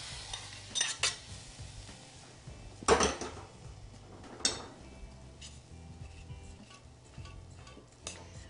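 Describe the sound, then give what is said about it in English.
A spoon stirs an oat and nut mixture coated with hot sweet potato syrup in a bowl, with soft scraping and a few louder clinks against the dish, quiet overall. “Now this hot syrup is going to go over my oat and nut mixture, and I'm going to mix it till it gets all evenly coated.”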